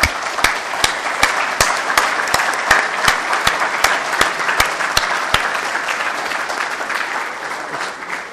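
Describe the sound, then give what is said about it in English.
A round of applause for a committee chairman at a formal meeting: steady, dense clapping from a crowd of delegates, with a few sharp claps standing out, holding evenly throughout. “Why don't we all give a round of applause to the Scientific Committee Chairman?”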